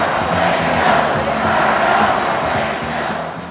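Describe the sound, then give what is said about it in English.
Campaign rally crowd chanting "fired up, ready to go" in a loud, rhythmic, repeated call over a roar of massed voices, the chant pulsing steadily throughout. “That final chant was one that would end up at almost all rallies till the end of the campaign. So one half of the audience said fired up and held up red signs. And then the other half of the audience said ready to go and they held up blue signs.”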